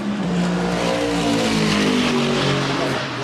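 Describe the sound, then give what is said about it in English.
A Lexus RC F race car drives past during an endurance race, its engine a loud, continuous roar with a steady, gritty tone throughout. “Lexus RCF go past.”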